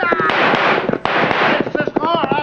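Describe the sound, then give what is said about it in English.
Gunshots fired during a chase on horseback go off as quick, sharp crackling pops in irregular bursts. Excited voices shout over and between the shots. “Yeah, we will do some shooting ourselves just to spoil their aim.”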